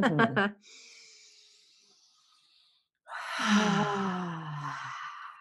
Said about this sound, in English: I just invite everybody right now to take a nice deep cleansing breath in through your nose and then out through your mouth. Yeah, let's do that one more time.